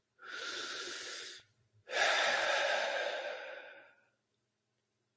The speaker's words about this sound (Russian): и теперь глубокий вдох и выдох с этим состоянием делайте.